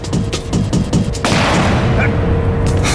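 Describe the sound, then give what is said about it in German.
Pistol gunfire from the passenger window of a pursuing BMW during a car chase: a rapid series of sharp bangs, then a loud, dense, sustained roar. “Schießen wieder!”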